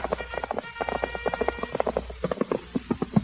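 Horses' hooves clip-clop as a squad of soldiers rides up, with many quick, uneven beats at a fairly steady loudness throughout.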